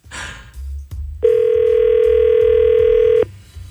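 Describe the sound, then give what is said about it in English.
Ringback tone of an outgoing phone call: after a short burst of noise, a single steady electronic ring sounds loudly for about two seconds, then stops and leaves low background noise. “One more ring.”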